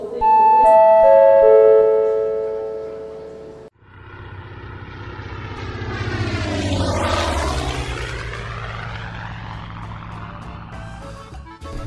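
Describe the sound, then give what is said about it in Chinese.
A passenger airliner bound for Cusco takes off. A short run of steady stepped tones gives way to a loud, building engine roar whose tones sweep and cross as the plane passes. “您所搭乘的北星航空七一八一号。前往库斯科的航班即将起飞”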